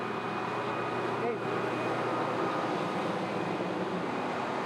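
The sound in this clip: A farm machine, probably a combine harvester, runs again after nearly a day of repair, giving off a steady, even engine drone with a faint tonal whine while people talk over it.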